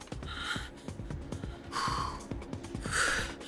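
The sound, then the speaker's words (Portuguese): Three deep breaths, each a slow breathy inhale that swells and fades, spaced evenly apart, with faint rhythmic tapping underneath. “Respira fundo.”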